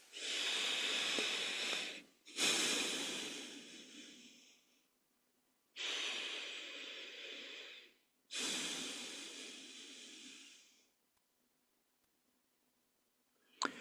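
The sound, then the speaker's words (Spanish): Slow, deep breaths during a guided relaxation exercise: four long, airy breath sounds, each swelling and then fading, separated by short pauses. They are soft and heard alone. “Hacemos un par de respiraciones profundas.”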